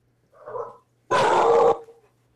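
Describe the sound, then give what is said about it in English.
A pet dog gives a low, soft growl, then one loud, sustained bark lasting over half a second. “Sorry about my dog.”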